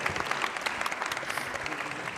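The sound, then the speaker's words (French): Audience applause for a guest after questions at a talk: dense, steady clapping from many hands, moderately loud and unbroken for the whole short clip. “Vous pouvez applaudir Francis Allais, je pense.”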